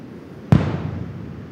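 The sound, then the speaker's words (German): A washed-up sea mine with several fuzes is blown up in a controlled detonation where it came ashore. It gives one sharp, loud blast, followed by a rumbling tail that fades over about a second. “Zum Beispiel, wenn eine Riegelmine angespült wird. Die hat mehrere Zünder und kann schon bei der kleinsten Bewegung hochgehen. Deswegen muss der Kampfmittelbeseitigungsdienst sie direkt an der Fundstelle sprengen.”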